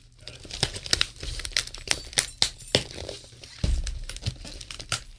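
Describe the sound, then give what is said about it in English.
Packaging wrapped in heavy tape being ripped open: an irregular series of crinkling, tearing and crackling bursts, moderately loud, with a deeper thump partway through and no voices. “That's pretty good. I could probably rip it from there.”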